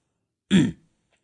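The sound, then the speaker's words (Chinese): A man clears his throat once in a short, rough, throaty burst. Silence follows it. “连判清了一下嗓子，打断正欲开口的孙立刚。”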